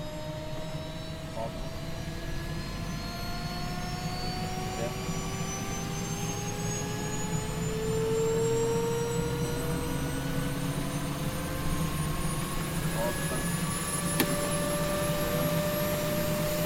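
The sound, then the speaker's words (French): An aircraft takes off to join an aircraft carrier. Its engine gives a steady, loud drone with several whining tones that climb slowly in pitch, and the noise swells slightly midway. “Aujourd'hui, troisième épisode, on décolle pour rejoindre le Charles de Gaulle.”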